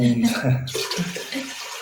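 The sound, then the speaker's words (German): Water pouring into a cooking pot to make paella, a steady splashing rush that runs through the whole clip under a person talking. “Und ja, wir müssen mit Wasser 3-mal mehr auffüllen”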